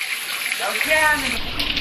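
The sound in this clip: Water spraying from a rockery fountain in a garden pond planted with water lilies makes a steady, full rushing and splashing hiss that continues at an even level throughout.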